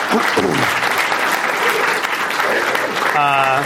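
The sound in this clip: An audience at a San Francisco discussion event applauds to thank a guest speaker with strong, steady clapping from many people. A voice begins speaking just before the end.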